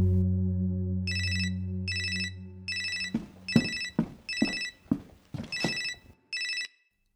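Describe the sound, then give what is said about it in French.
A newly installed living-room telephone rings in seven evenly spaced trilling bursts. Beneath them a low drone fades partway through, and a series of soft thumping hits joins in. “La seule réussite de son après-midi était l'installation d'un nouveau téléphone dans le salon, au cas où Vincent appellerait.”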